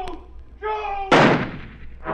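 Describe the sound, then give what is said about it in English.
Gunshots fired in a clearing: a short voice is followed by a loud, sharp blast with a ringing decay, and a second shot begins right at the end. “I fired again, and again, and again! But I couldn't hit him!”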